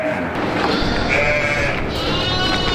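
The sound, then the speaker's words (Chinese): Hu sheep, a Chinese breed from the Taihu plain, bleating: a few wavering, nasal bleats rise above a steady, dense background noise. “湖羊这一中国特有的珍贵绵羊品种，主要产于太湖平原一带。”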